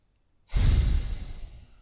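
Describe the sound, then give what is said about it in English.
A deep exhale during a slow breathing exercise: one loud, breathy rush that begins abruptly and gradually fades, with no talk. “All the way in, all the way out. And four. Last one and five.”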